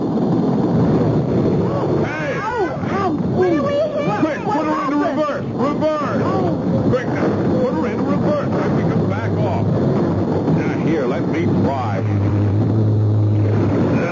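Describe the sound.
Boat engine running at low throttle, a steady low drone that continues throughout beneath people talking.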